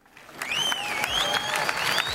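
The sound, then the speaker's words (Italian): Audience applause fills the Arena Santa Giuliana in Perugia at the start of a live evening show. The dense clapping swells in from quiet and then holds a steady, full level. “E solitamente l'Arena risponde con un applauso che condividiamo con voi, pubblico di Radio Monte Carlo.”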